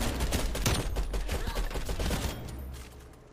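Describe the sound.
Rapid automatic gunfire from a 75-round magazine in an online shooter game, a dense stream of quick shots that trails off near the end.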